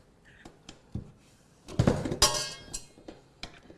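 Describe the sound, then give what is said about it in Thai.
A beater attachment is fitted to a mixer with quiet metallic clicks and taps, then a louder burst of rattling clatter and clinks before it settles back to scattered light knocks. “เดี๋ยวเราจะมาใส่เครื่องตีของเราค่ะเวลาใส่เครื่องตีนะ”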